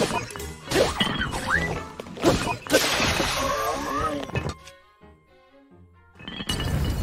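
Sword strikes ring out in Zelda: Tears of the Kingdom as a few sharp whacks and crashes with swooshing effects, amid busy game sound. A quieter lull follows before loud sound resumes at the end.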